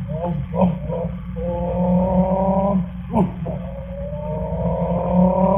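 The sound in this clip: A human voice imitates a car engine shifting gears, a few buzzing tones that climb in pitch, break off and start rising again, like revs between shifts, over a steady low drone.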